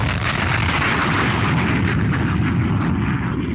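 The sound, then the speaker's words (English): Bomb explosion sound effect: a sustained, dense, roaring blast that fills the whole clip, its rumble steady while the brighter crackle thins out toward the end. “I've been playing The Bomb sometimes on my wrestling podcast, like because there's big wrestling news. And I got the most earnest email the other day from someone just being like, hey, I noticed you've been playing that bomb sound effect a lot.”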